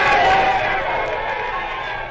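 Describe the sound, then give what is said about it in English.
Crowd murmur at a world singles bowling championship, a steady broad hubbub that eases slightly in level. “where the World Singles Bowling Championship title is at stake. There's a big crowd here.”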